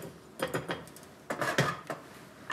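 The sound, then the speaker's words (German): A kitchen scraper scrapes around a bowl in a few short, faint bursts of scraping and light clinking, with no talking. “und jetzt hole ich nochmal den Schaber”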